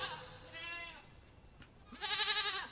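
Bleating of a lamb: two quavering, nasal calls, the second louder and longer than the first, heard alone without talk.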